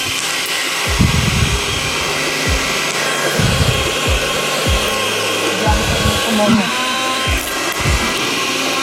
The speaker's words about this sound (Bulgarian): Да пускам блендър.